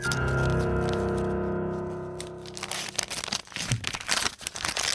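Paper envelope torn open: a steady tonal stretch gives way, after a couple of seconds, to dense crinkling and ripping rustles that continue, loud and uneven, to the end.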